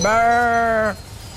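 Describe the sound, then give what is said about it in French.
A person imitates a ewe calling her lamb with one loud, sustained bleat. The bleat is steady and harmonic and lasts just under a second before it cuts off into quiet. “c'est quand tu cherches l'agneau, tu peux faire le bruit de la maman comme ça. Comme si t'étais la mère. Tu l'appelles.”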